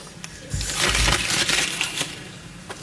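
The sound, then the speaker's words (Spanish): Crackling rustle of a sheet of paper crumpled by regional president Mañueco in the chamber of the Cortes of Castilla y León: a short, dense crinkling burst that swells, fades, and ends with a few last crackles. “Entonces Mañueco, como han escuchado, arrugó el papel y lo tiró al suelo del hemiciclo de las Cortes.”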